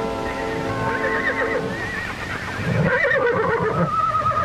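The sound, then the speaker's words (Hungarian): A foal neighs in a long, high, wavering whinny, followed by rougher, lower horse sounds and movement. “Elbírálják, rásütik a bélyeget, törzskönyvi számot, nevet kap a csikó.”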